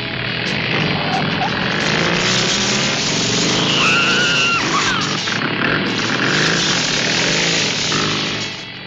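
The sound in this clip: Cars race through a canyon with a continuous roar of engines, loud and steady throughout, with a brief high tire squeal rising and falling midway.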